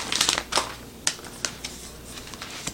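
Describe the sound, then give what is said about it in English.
Sleep masks being pulled from their packaging make faint crinkles and crisp clicks: a cluster of quick rustles at the start, then a few scattered sharper snaps. “But before I do that, let's take them out of the package.”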